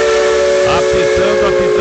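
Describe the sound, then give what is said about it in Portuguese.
A steam train whistle blows in one sustained, steady-pitched shriek through the whole clip, loud and continuous over a hissing wash of steam and a low rumbling underneath. “Nossa Maria Fumaça já está aí, ó.”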